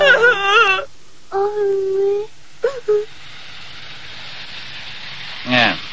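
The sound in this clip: A woman crying in an animated series, a few drawn-out tonal wails and sobs separated by pauses over a faint hiss.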